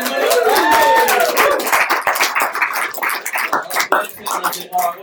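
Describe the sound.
An audience claps to welcome a guest, with brisk, fairly loud clapping that continues throughout while voices call out and talk over it.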